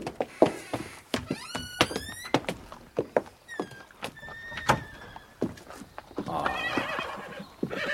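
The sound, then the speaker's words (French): Horses whinny beside a waiting carriage. A few shrill, wavering neighs rise and fall over a run of sharp knocking clatters. No voices are heard. “Ils sont beaux. Ils ont coûté cher. Les chevaux en sont-ils moins beaux?”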